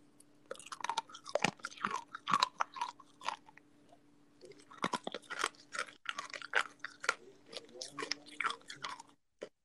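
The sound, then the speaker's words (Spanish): Crunchy sugar candy chewed close up: many sharp, dry crackling crunches in an irregular run, quiet overall, with a short pause midway before the chewing resumes. “Esto es azúcar puro, pero está buenísimo. Mira cómo cruje.”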